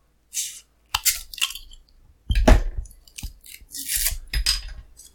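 Someone opens a sealed beer package with a label or band seal, making irregular bursts of crinkling, tearing and crunching. The loud rustles are broken by short pauses, with no voices.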